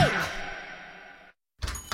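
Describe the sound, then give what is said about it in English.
Two firm knocks on a door in quick succession come after a ringing tone fades out and a short silence. “Knock, knock, Capital One Bank guy.”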